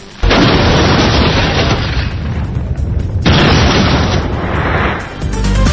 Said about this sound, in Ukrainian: Трохи історії. 60 років після першого ядерного випробування в Радянському Союзі. Автомат включен. Останні секунди.